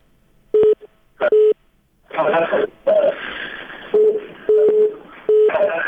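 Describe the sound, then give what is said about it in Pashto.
Telephone line tones from a failed phone connection: several short, steady beeping tone bursts interrupt stretches of harsh, crackling, garbled line noise, all fairly loud. “داسې معلومیږي چې زموږ تلیفوني اړیکه سمه نه ده، اکثرا تلیفونونه سم کار نه کوي”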